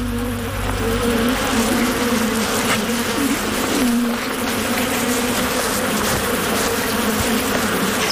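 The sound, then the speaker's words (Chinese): A bee swarm buzzes as a honey badger raids the hive: a dense, continuous, loud drone of many insects that stays steady throughout. “面对蜂群的攻击，蜜獾丝毫没有退缩。”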